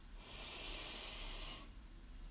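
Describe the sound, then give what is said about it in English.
A deep breath drawn in during a guided breathing exercise: one long airy rush lasting over a second, then dropping away to near quiet. “Let's take a deep breath in together.”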